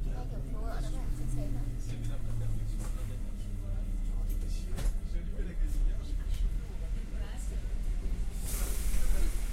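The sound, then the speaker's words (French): Train station ambience at Paris Gare du Nord: a low rumble and steady hiss with murmuring voices throughout, and a brief louder hiss near the end. “Paris, Gare du Nord.”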